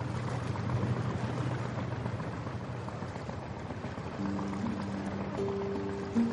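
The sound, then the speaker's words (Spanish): A motorboat's engine drones steadily past a small boat on the water at night: a low rumble with a broad, watery hiss at a fairly constant level. Sustained tones come in over the last two seconds. “La lancha pasa junto a ellos. Buenas noches. La lancha se aleja.”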